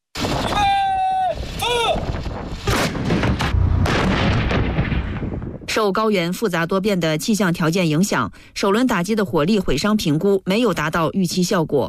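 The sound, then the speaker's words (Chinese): Artillery live-fire strike during a military exercise at over 4,000 metres altitude: a rapid series of heavy, loud booming blasts for several seconds, then a man talking continuously. “官兵们按战斗队形散开，迅速完成前沿侦察、弹药装填和诸元计算，并展开首轮火力打击。”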